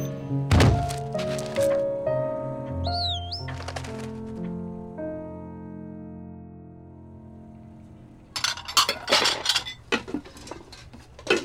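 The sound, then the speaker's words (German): A cooking pot is handled: a heavy metallic clank rings out with a long sustained tone that slowly fades, followed by a flurry of loud clattering knocks. “Wo kommt der Topf hin? Gib her, ich mach das schon.”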